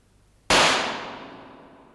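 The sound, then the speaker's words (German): A single sharp gunshot in a radio play, a man shooting himself in the temple, bursts out abruptly and rings off in a long, gradually fading tail. “Plötzlich hielt er inne, setzte die Waffe an die Schläfe”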